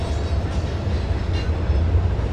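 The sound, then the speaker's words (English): A train rolls past with a continuous, heavy low rumble and a steady rattling texture, loud and even from start to end, with no voices. “Here goes the train.”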